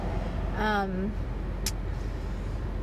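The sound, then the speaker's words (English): Low, steady road rumble fills the inside of a moving car with traffic noise around it. A brief voice-like sound rises over the drone early on, and a short high hiss cuts through later. “there's always traffic and loud noises in the background every time I do this, because most of the time I do my podcast, I am driving.”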